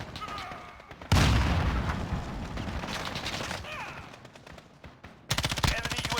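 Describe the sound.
Rapid gunfire from a suppressed weapon in a video game: one long burst of quick, rhythmic shots, then a quieter stretch and a second short, sharp burst at the end.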